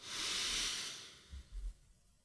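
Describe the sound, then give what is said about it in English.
A slow, deep breath drawn in through the nose, heard as a soft, steady hiss that swells and then fades, part of a calm breathing exercise of in through the nose and out through the mouth. “Take several deep breaths and witness the power of your body to keep you alive in this moment. In through the nose,”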